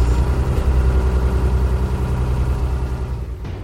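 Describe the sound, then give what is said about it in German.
A ship's engine running, a loud, steady low rumble with a throbbing drone that holds constant throughout. “Ich starte das Schiff. Jetzt geht es los.”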